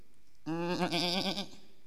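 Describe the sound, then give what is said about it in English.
A single sheep bleats once, a wavering, quavering cry lasting about a second, moderately loud and alone against quiet. “What then is this bleating of sheep in my ears?”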